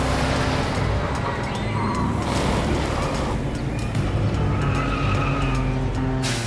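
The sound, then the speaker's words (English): A car drives through city streets with a loud, steady rush of engine and road noise. Brief high tyre-squeal tones break through the noise, which continues without a break to the end. “drives through the streets and arrives at the amusement park.”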